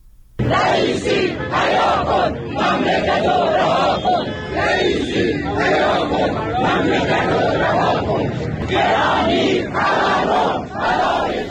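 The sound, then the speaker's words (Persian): Protesting retirees at a rally in Kermanshah chant slogans in loud, rhythmic bursts of many voices, repeated in a steady cadence with brief dips between phrases. “صدای بازنشستگان معترض در کرمانشاه رو میشنیدید.”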